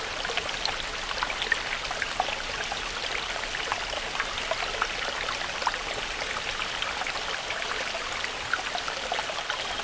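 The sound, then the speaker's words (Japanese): Flowing water of the Ilissos stream, a steady, even rushing and trickling with small bright splashes scattered through it, heard alone without voices. “少し脇道に入ってイリソスの流れに沿って降りていきましょう。”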